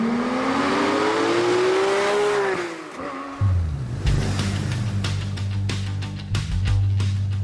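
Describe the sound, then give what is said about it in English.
A car engine revving sound effect: a whining rev climbs in pitch, then drops away, giving way to a deep rumbling engine with a few sharp throttle blips. “You're going to hit a little vroom noise”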